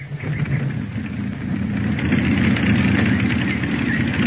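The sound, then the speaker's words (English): Aircraft engine starting and idling on a test flight: a steady, rough low rumble with a vibrating throb that grows somewhat louder partway through and then holds even, with no talk. “Ready for your test flight, Charlie? Ready. Switch off. Throttle closed. Contact. Contact.”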